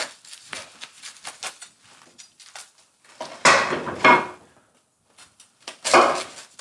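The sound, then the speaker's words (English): A wooden cutting board is picked up and handled on a kitchen counter, making a series of scattered knocks and clatters. They are mostly light, with two louder bursts of clunking near the middle and end. Nobody speaks. “Oh, I need a cutting board. I need a cutting board.”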